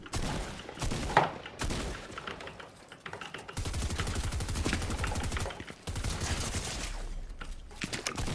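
Automatic gunfire is sprayed in the video game The Pit, coming as rapid rattling volleys in a few sustained bursts separated by brief pauses, with a low rumble under the later bursts.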